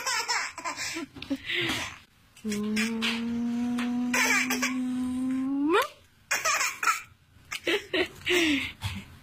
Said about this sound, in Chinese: 行了，不笑了，一会儿又该打嗝了。呀，已经打嗝了。